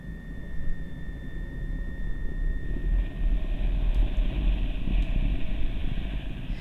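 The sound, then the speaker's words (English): Strong wind blows outdoors in Antarctica as a steady, low, roaring rumble with gusty buffeting, continuous throughout and without voices. “But also when it's that windy, it's very difficult to record, and it's rather unpleasant to be standing outside for long periods of time in Antarctica. So that's a piece that's all about wind.”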